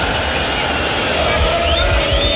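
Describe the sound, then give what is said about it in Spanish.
A football stadium crowd at Estadio Nacional chants against the club directors, a dense, steady roar of many voices that holds at a loud, even level throughout. “Escuchemos al público. El cantito contra los dirigentes.”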